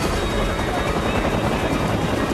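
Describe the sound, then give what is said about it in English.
A helicopter's engine and rotors producing a steady, dense whirring roar that holds at an even level throughout, with no clear breaks or changes. “has climbed into the cockpit of the hijacked helicopter”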